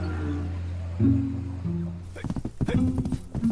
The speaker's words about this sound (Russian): Ее муж запрыгивает в седло и скачет в степь.